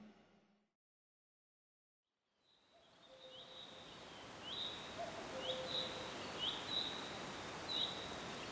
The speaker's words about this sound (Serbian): Rano je jutro na Fruškoj gori. Čuju se ptice, šušti granje, skoro potpuno zatomljen zvuk civilizacije negde iz nepoznatog pravca